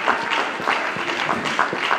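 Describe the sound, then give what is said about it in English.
A church audience clapping hands in praise for a new convert: brisk, continuous applause with individual claps standing out here and there, holding a fairly even level from start to end. “Let us give God a hand clap of praise for someone who's been given a life to God.”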